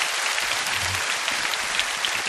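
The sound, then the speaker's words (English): Congregation applauding during an Easter church service: a dense, even wash of many hands clapping that holds at a steady level for the whole stretch, without distinct individual claps or voices. “Church, why don't we clap our hands for all those around the globe who have joined us online.”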